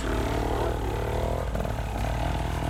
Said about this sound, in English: He's got his bike started because he bump started it.